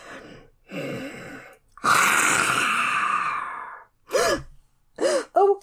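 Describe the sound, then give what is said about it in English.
A voice imitating a dragon breathing fire indoors: two short breathy gasps, then a long, loud, roaring exhale, followed by a few brief vocal bursts. “I don't like to breathe fire indoors, but if it'll help you understand the situation, then okay.”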